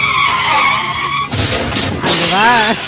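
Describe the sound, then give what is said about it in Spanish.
A car skids and crashes while being driven by someone blindfolded: a sustained tonal tire squeal, then harsh noisy impacts with glassy shattering, loud throughout. “Se estrella mientras conducía el coche con los ojos vendados.”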